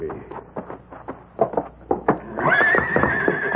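A stallion in a barn stall thumps out a run of sharp, irregular knocks, then breaks into a long, loud, high whinny that carries to the end.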